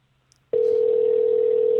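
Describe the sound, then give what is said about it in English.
Telephone dial tone: a short quiet stretch, then a steady, loud, unbroken hum that holds one pitch to the end. “Wait, you know what? I put too many ones in. Whoa. I think I dialed wrong.”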